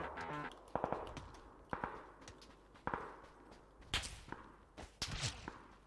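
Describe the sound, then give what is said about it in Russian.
Gunshots ring out in a PUBG Battlegrounds shooter video game as an enemy fires at the player: several sharp, fairly faint cracks spaced irregularly over a low background of game noise. “Так, кто-то по мне стреляет.”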